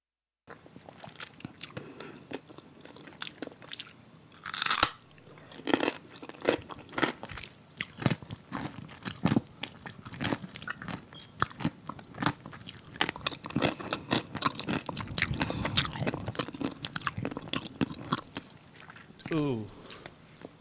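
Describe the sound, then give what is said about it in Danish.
An adult woman eats a huge pickle, with many crisp, crunchy bites and wet chewing and squishing sounds in an uneven rhythm throughout. “Jeg synes lige, vi skal starte med at høre et, et lydklip af en, øh, af en voksen kvinde, som spiser en enorm pikkel yeah.”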